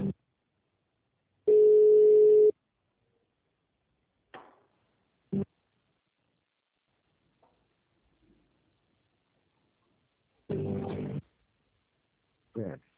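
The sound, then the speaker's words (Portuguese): A telephone line tone plays while a call is being transferred: one steady, mid-pitched beep lasting about a second, followed by a few short clicks and brief bursts separated by quiet gaps. “Por favor, aguarde, que sua ligação será transferida.”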